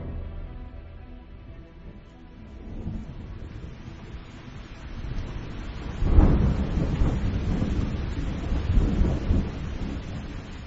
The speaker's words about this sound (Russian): Тяжелые капли дождя глухо стучат по зеленому капюшону Эльки